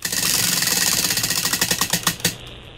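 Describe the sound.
A prize wheel spins with a rapid run of clicking ticks that gradually space out as it slows, ending in a few sharper clicks before it stops.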